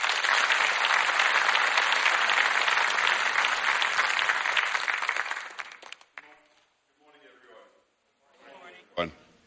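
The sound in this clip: An audience applauds as a bishop and his wife are welcomed to speak at a church gathering. The clapping is loud and dense for about six seconds, then fades, and a voice begins speaking.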